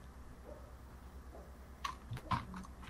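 A few soft key clicks from a computer keyboard as a good night message is typed into a chat, scattered near the end over a steady low hum.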